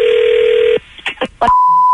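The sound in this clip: Telephone line tones open a prank call: a steady, fairly loud dial tone hums for under a second, breaks off into a few short bursts, then a single higher steady tone sounds alone to the end.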